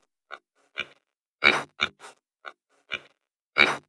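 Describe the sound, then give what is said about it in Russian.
A bristling wild boar grunts in a series of eight short, rough grunts, spaced irregularly with silence between them. “А кабан ощетинился, хрюкает.”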